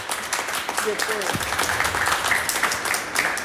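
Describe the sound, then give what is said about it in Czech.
Applause from an audience at a ceremony honouring a gliding medal winner, a dense, steady wash of clapping that holds through the whole clip, with a brief voice heard beneath it. “No já myslím, že to si zaslouží potlesk,”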